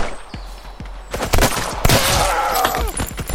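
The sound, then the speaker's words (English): Machine-gun fire in a shooter video game: rapid cracking shots in dense bursts over a loud, noisy background, growing heavier and more continuous through the second half. “See, now we're starting to get people with machine guns.”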